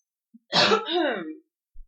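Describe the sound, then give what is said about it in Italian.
Coughing from a radio presenter who stepped away from the microphone: a single rasping, throat-clearing cough, a harsh burst that runs into a rougher voiced rumble lasting under a second, heard alone without talk. “Passo il microfono perché devo tossire, scusate.”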